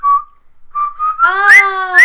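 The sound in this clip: A person whistles a war film theme tune: a few short, bright notes, then longer sustained tones with a fuller, reedy edge, loud and with no talk over it.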